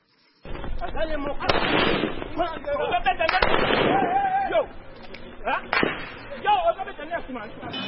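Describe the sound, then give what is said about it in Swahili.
Gunfire from police of the Democratic Republic of Congo dispersing opposition supporters protesting election results in Goma. A few sharp, loud reports cut through a continuous din of crowd voices and shouting. “Huo ni mlio wa risasi kutoka kwa polisi ya Jamhuri ya Kidemokrasia ya Kongo”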